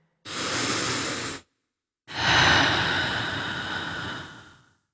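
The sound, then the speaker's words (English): A person takes a deep breath: a steady, airy inhale of about a second, a brief pause, then a longer, fuller exhale that slowly fades away. “Take a breath.”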